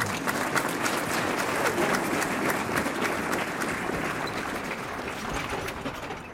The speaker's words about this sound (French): Les députés ont applaudi mon discours.